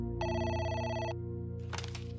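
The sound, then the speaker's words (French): A telephone rings once with a bright, buzzing electronic bell tone lasting about a second. It is clear and moderately loud over a low steady hum, followed by a short burst of noise. “Chaque nuit, mon téléphone sonnait.”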